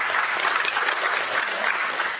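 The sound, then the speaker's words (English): Applause from a church audience, a dense, steady wash of many hands clapping at an even loudness throughout, with no voices standing out. “I appreciate the applause, but I'm not saying it for the applause.”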